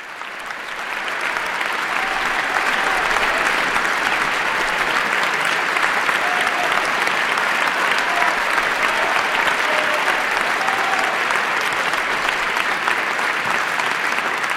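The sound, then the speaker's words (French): Sustained applause from the Opéra Garnier audience, an ovation for Jessye Norman after her 1980 recital of Wesendonck Lieder with pianist Dalton Baldwin. The clapping swells in over the first second, then holds dense, even and loud to the end. “Jesse Norman, vous l'entendez ovationné par le public de l'Opéra Garnier après ce récital”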